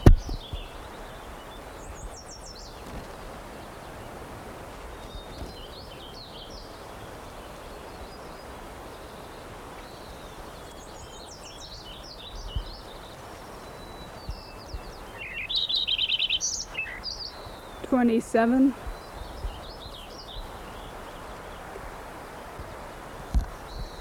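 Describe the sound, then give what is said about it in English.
Lincoln's sparrow song: faint, scattered high chirps over steady background hiss, then a louder run of bubbly, trilled phrases toward the end. “Lincoln Sparrow number 5 continued.”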